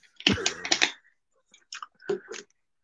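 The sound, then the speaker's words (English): Keystrokes on a computer keyboard as someone types a search query. Two short bursts of quick clicking are separated by a brief pause. “As I type it into fucking Google.”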